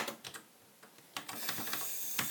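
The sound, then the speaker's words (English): Typing on a computer keyboard: many quick, light key clicks in an uneven rhythm, faint and alone, with a short pause before a faster run of keystrokes. “Let me type that in.”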